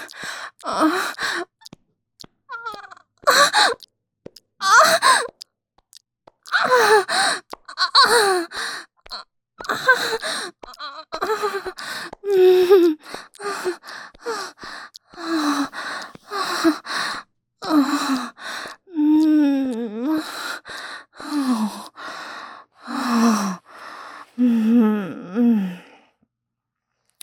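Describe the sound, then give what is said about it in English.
A woman's moans during orgasm: many breathy, sighing cries and gasps, often falling in pitch and separated by short pauses, becoming quicker and more tonal toward the end. “you're about to hear what a real fucking orgasm sounds like.”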